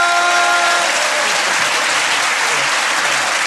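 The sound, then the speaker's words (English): An audience applauds a stand-up comedian at the close of a comedy show. The clapping is thick and even, a steady wash of hands that holds at the same level for the whole stretch with no talk over it. “Ladies and gentlemen, give a massive round of applause.”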